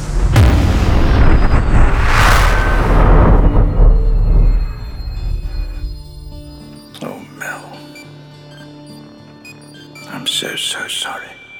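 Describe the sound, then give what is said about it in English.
A large bomb explodes in a loud, rumbling blast that holds for several seconds and slowly fades. Quieter tones and voices follow. “We seem to be trapped inside a very large bomb! Just press down on this here handle.”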